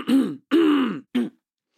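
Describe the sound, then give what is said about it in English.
Someone clears their throat in three rough, low bursts, the last one shortest, with silence between and after them. “Simon clicks his heels together and clears his throat”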